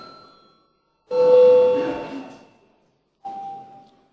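A chime rings in the Latvian parliament chamber to call deputies to register. A lower tone strikes and fades slowly, then after a pause a shorter, higher tone follows.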